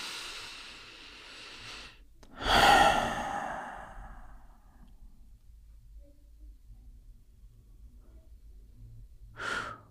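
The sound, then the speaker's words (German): A deep breath taken in through the nose and let out through the mouth, as in a guided meditation, heard as one loud airy rush of breath. A quieter, shorter breath comes near the end against faint background hiss. “Wir nehmen nochmal einen tiefen Atemzug zusammen, durch die Nase ein, durch den Mund aus.”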